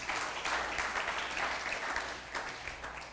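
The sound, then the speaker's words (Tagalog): A church audience applauds during a sermon. Many hands clap in a dense, steady wash that holds an even level throughout, with no voices. “Palakpakan nga po natin yung Panginoon. Come on.”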